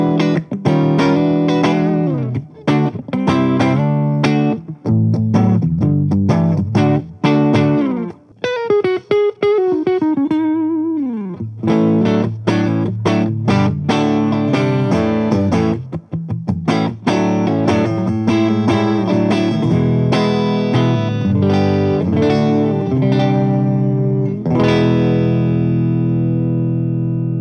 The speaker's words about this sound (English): Let's switch to the neck pickup here as well. We get more of a bluesy kind of neck sound.